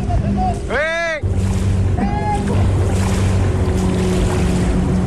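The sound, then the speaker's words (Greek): Inflatable boat speeding over water toward a shallow reef, its steady engine drone and rushing spray loud throughout, with two brief raised voices early on. “η κάμερα του Sky κατέγραψε αυτό το φουσκωτό να κινείται με μεγάλη ταχύτητα κατευθείαν πάνω στην ξέρα”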